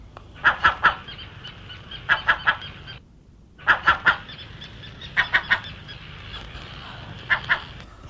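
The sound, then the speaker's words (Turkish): Crows cawing as a radio drama sound effect: harsh, raspy calls in tight groups of about three, repeated several times with short gaps over a steady low background noise. “Güzel gri siyah tüylü, kanatlı kardeşleriniz arasına karışan bir karga.”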